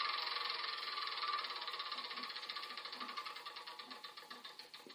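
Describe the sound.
Spinner wheel spinning in The Game of Life video game: a rapid run of ratcheting clicks that gradually slow and spread apart as the wheel winds down, heard alone without talk.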